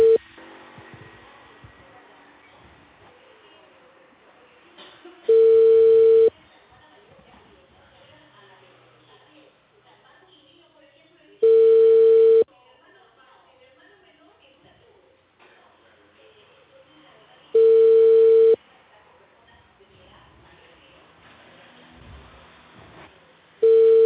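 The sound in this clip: An unanswered telephone call rings out as four steady, mid-pitched tones, each about a second long, spaced several seconds apart, with only faint low noise in the gaps.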